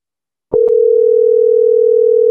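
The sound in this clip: A steady, unbroken telephone dial tone follows a few short clicks after a number is dialed. The tone stays loud and even, holding one pitch to the end.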